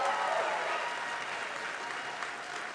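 Applause from an audience welcoming a group of musicians, a dense, steady wash of clapping that holds at an even level and eases slightly toward the end.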